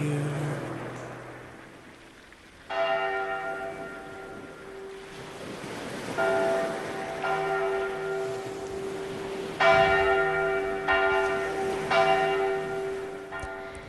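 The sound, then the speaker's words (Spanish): A church bell rings from a belfry within a song, several resonant strokes sounding over a washy, wind-like musical backdrop. “Belfry significa campanario en inglés y ahí se escuchaba esa campana en la canción de la banda”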